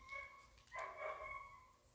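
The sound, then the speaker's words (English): Faint barking from a dog outside, a short cluster of yelping barks rising briefly above a quiet background. “are they killing that dog outside?”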